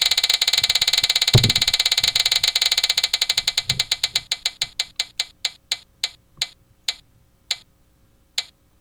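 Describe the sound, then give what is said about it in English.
A prize wheel spins with a rapid, even run of bright clicks that gradually slows into widely spaced single ticks before coming to rest. “For $100 to Kroger, spin the wheel. Oh, loud. Much better.”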